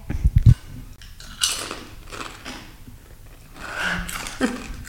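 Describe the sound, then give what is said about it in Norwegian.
Biting and crunching on rib-flavoured potato chips: a few sharp, crisp crunches at the start, then softer chewing and rustling. “ok, nå kan vi prøve det ribbepotetgullet ditt.”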